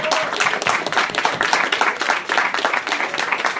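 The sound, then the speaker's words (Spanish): Audience applause at a comic-themed talk, with many hands clapping in a dense, steady patter that holds at an even, moderate level from start to finish, without voices. “me gustaría darle un fuerte aplauso a todos ustedes por acompañarnos.”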